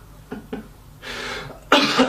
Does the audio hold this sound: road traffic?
no